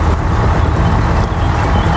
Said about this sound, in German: Hier ist die Gangschaltung. Ich mach mal den ersten Gang rein. Es klappt. Wir fahren.